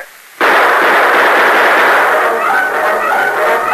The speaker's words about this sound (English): As the torch flared through the darkness, the outlaws opened fire.